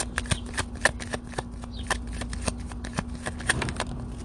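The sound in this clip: A deck of tarot cards being shuffled: many quick, crisp riffling clicks in a brisk, irregular rhythm, loud and alone.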